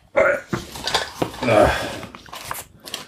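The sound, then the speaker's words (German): Lid being put back on a container, heard as a few short clattering knocks and scrapes mixed in with a voice talking. “Deckel drauf.”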